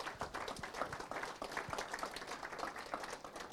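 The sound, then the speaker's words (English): An audience applauds at the close of a session, with many hands clapping in a dense, even patter that stays fairly faint and steady throughout. “Thank you guys so much. Thank Renaud one more time.”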